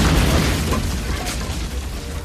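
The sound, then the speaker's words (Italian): A grenade explodes on a World War I battlefield on the Isonzo front. It makes a loud, dense, roaring blast with heavy low rumble that fills the whole clip and eases only slightly toward the end. “Improvvisamente scoppia una granata.”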